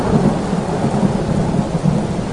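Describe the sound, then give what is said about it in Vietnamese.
Thunder rumbles loudly and continuously through a rainstorm, a deep, rolling roar with steady rain hiss layered over it and no pause throughout. “Một tiếng sét nổ vang lên, chấn động khiến đất rung núi chuyển.”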